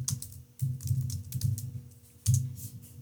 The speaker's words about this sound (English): I just typed in Daniel Jones run.